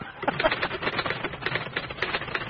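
Rapid typing on a computer keyboard, with many light, quick key clicks running in a steady, continuous patter from start to end.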